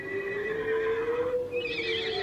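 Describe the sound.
A horse whinnies in a long, wavering, high-pitched call over a steady, sustained low tone.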